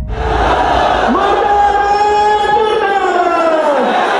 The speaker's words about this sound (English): This is the sound of an angry mob in Pakistan.